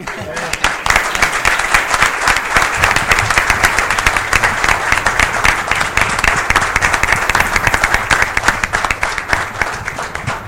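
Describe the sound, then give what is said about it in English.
Crowd applause at a gathering, a round of clapping for a police officer's wife: many hands clapping in a thick, continuous patter that stays loud and even for about ten seconds. “So I want to give just his wife Jenny a round of applause for being here”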